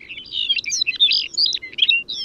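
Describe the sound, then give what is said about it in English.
A Lapland longspur sings over Arctic tundra, a rapid, high, tinkling warble of short liquid phrases run together, fairly loud and continuous, with no other voices. “The longspur often takes flight to sing, casting its gentle song into the air as it glides above the Arctic tundra.”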